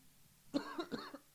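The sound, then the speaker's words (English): A few short, husky coughs burst out in a quick cluster after a quiet start. They sound sudden and fairly faint, with no talking. “sorry, fucking coughing just comes out of nowhere”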